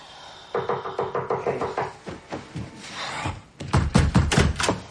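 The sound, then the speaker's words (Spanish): Knocking at a door and the door being opened: a run of steady, evenly spaced raps, then a short gap and a louder burst of clunks and clatter. “Más tarde llaman a la puerta y Hal se despierta de un intenso sueño. Se levanta y abre la puerta.”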